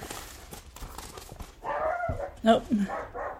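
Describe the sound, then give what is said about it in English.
A Chihuahua barks, likely at a delivery driver: a few sharp, high yaps cluster near the end over a murky, noisy background with indistinct talk. “our famous Chihuahua. You can probably hear him barking. He's probably after the UPS man.”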